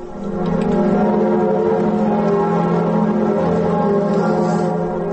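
Cathedral bells of Notre-Dame in Paris ring at noon as a mark of mourning, a loud, sustained, resonant clangour with layered overtones that holds steady throughout, with no voices.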